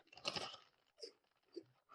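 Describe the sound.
Crunching on beer-cheese-flavoured snacks: one loud, crackly bite followed by a few shorter, quieter crunches as chewing goes on, all fairly quiet.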